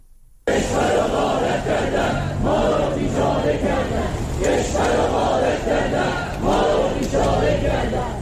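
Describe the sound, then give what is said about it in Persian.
Protesting retirees in Rasht, Iran, chant slogans together. After a brief quiet moment, a loud, continuous crowd chant starts abruptly and carries on with regular swells of massed voices. “و صدای بازنشستگان معترض در رشت.”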